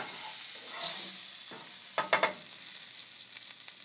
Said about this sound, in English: Or as we say, potatoes. Cooking them up. Cooking up potatoes.